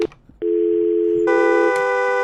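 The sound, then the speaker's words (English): A telephone dial tone starts after a moment of faint noise and holds as a loud, steady, unbroken tone. Partway through it turns brighter and harsher, and a brief click sounds near the end. “I'm beset with, what do you call it? Dial tones.”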